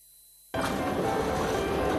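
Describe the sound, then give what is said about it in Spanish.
A train's steady, loud rumbling roar starts abruptly after a short silence and continues evenly without a break. “Durante 20 segundos, este tren usará la energía suficiente para que Pablo y Luis se reencuentren.”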